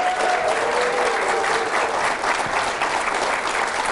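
Studio audience applause welcoming Green Bay Packers head coach Mike McCarthy onto his weekly show: a dense, steady wash of clapping that stays at full loudness throughout without pause.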